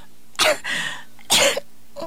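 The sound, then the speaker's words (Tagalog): A person with a persistent, unrelenting cough gives two harsh, loud coughs about a second apart, followed by a faint, short third cough at the end. “Pila na nakahigayo na imong ubo. Murag wa na'y undang-undang na imong ubo.”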